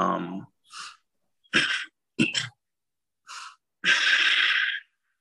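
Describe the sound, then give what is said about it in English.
A voice imitates a masked villain's heavy mechanical breathing as a series of rasping, hissing breaths separated by pauses. The sequence ends with one longer drawn-out breath. “I would either use a Darth Vader voice, which is something like this.”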